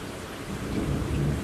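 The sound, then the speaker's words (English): Thunder and heavy rain during a storm over Delhi streets: a steady, dense hiss of pouring rain over a low rumble that swells slightly toward the end, with no voices. “And you can hear the thunder outside.”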